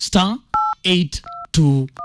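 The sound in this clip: Phone keypad tones dialing a USSD code on a mobile handset: three short two-tone beeps, each set apart by bursts of a person speaking.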